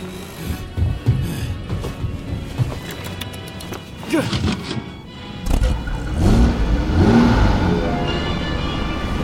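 A car engine cranks over and then revs unevenly, loud and rough, with sharp clicks and clatter mixed into the surrounding noise.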